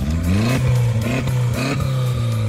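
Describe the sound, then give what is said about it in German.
Engine of an Audi A3 race car built for a dirt stubble-field race, revving in the paddock with a loud, steady rumble and a few short rising blips of throttle. “dieses Geräusch, das gehört zu dem Audi A3 von Jana Zillmann.”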